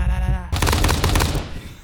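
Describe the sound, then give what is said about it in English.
Gunshot sound effect from a sound pad: a sudden loud, harsh blast after a short quiet lead-in, holding as a dense, crackling burst that may suggest rapid fire before it fades out. “Every time we introduce ammo, you know. We're going to introduce a gun going off or something like that.”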